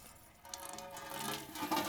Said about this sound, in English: opens an outdoor faucet at a home in the hills of Aromas. Water spills out into her bucket.